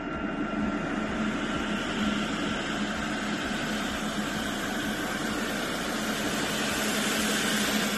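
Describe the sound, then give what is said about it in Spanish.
A freight train on the Seville–Sines line enters the rail terminal of a logistics platform near Badajoz. It makes a loud, continuous rumble of rolling wagons with a broad metallic hiss, steady and unbroken with no voices. “Así suena el tren de mercancías Sevilla-Sines, que entró al fin este fin de semana en la terminal ferroviaria de la plataforma logística.”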